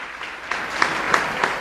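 Applause from an audience at a religious service: a short burst of steady clapping, moderately loud and even, with a few sharper claps standing out, and no speech over it.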